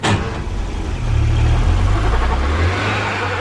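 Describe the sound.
A car engine runs with a steady low rumble that grows slightly louder after the first second and stays continuous throughout, with no talk.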